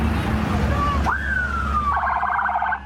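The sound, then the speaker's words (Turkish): Police sirens sound from a departing convoy of decorated police vehicles in Tokat. A short rising wail holds and then drops into a rapid high warble, over a steady low rumble of traffic. “Süslenen polis araçları peş peşe yola çıktı. Konvoyun en önünde ise şehit polis memuru Mustafa Çalışkan'ın adını taşıyan emniyet aracı vardı.”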